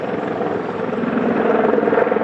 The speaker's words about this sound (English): Water bombing helicopters have been working throughout the day near St Helens on Tasmania's east